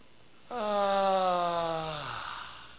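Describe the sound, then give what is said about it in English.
A voice imitating a strong breath through the nostrils: a single long, voiced exhale that holds steady, then drops in pitch and fades. “The word means a strong nostril breath.”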